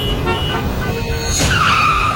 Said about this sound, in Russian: Плотным потоком движутся машины по одной из магистралей города.